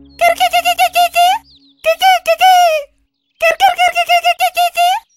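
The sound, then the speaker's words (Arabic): Crane calls in three loud bursts of high, rattling cries, each burst a quick run of repeated sharp notes, separated by short silent gaps. “وراح طائر الكركي يعلم الكلب صوته: هيا قلدني.”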